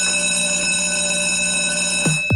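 Continuous bell ringing, steady and loud with a bright, sustained metallic tone, followed near the end by two short swoops falling sharply in pitch.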